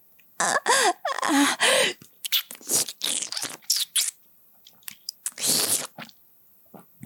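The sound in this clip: Food being bitten and chewed: crisp, crunchy munching in irregular loud bursts separated by short pauses, with no voices.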